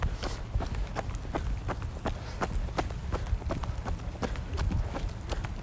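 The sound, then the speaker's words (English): Footsteps of a person out on a run: many soft, quick thuds in a fast, steady rhythm over constant background noise. “I wasn't sure whether I would be able to speak normally during my run, but I think I've done alright so far.”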